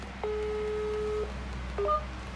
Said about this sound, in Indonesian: jadi kita bakalan langsung telepon orang pertama yang akan ditelepon di sejarah perhotspotan